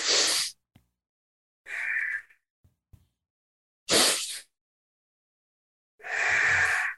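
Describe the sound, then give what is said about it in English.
A breathing exercise with a double inhale through the nose, then an exhale: a few short airy breaths separated by silence, the last one longest and fullest. “You take two breaths, one on top of the other through the nose, and you exhale. You can exhale through the nose or through the mouth for this exercise.”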